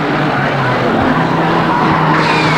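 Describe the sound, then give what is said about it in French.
A car drones steadily as it drags a body through sand on a battlefield strewn with the dead and wounded. The engine holds a low, even rumble under a continuous broad hiss, with no clear breaks. “Le corps de Genevois est tiré par la voiture. Il traîne dans le sable.”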